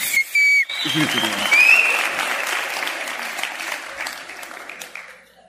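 An audience claps, opening with a few bright whistles before dense applause swells in. The clapping stays strong, then gradually thins and fades away toward the end.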